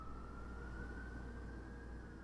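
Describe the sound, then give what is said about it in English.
Faint emergency siren holding a steady, high wailing tone throughout, over a low rumbling background. “hold on, there's a siren.”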